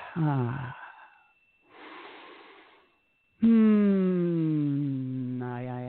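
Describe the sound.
Voiced exhalation during a guided breathing exercise: a short sung sigh falling in pitch, then a soft breathy rush, then a long, steady, loud humming tone with a gentle downward drift.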